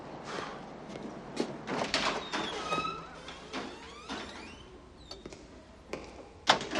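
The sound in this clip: A front door opens as a man enters a building from the front steps. A few clacks and knocks and some rustling are followed by a louder thump at the end.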